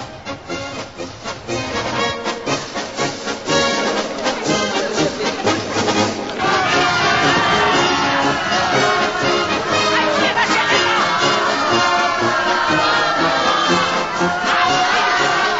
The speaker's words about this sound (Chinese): 车开进了捷克国境，车站上挤满了欢迎艾玛的人群。